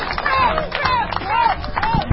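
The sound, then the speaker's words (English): A crowd of supporters waits in line for the US President's visit, with busy overlapping chatter, scattered claps and brief voiced whoops that keep going for the whole moment. “And listen to these folks, our live studio audience, for our coverage of the visit of the President of the United States. They sound fired up or what?”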